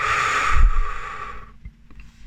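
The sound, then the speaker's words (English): A deep breath during a guided tapping exercise gives a loud airy hiss lasting about a second and a half, then fades to near silence. “Take a deep breath in. Release all that now.”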